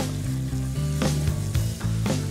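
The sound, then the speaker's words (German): Chicken pieces sizzle in a pan with ghee, cumin, ginger and turmeric, a steady loud hiss of frying broken by a few sharp scraping or clattering stirs. “Brate ich jetzt ein bisschen eben die Hähnchen an.”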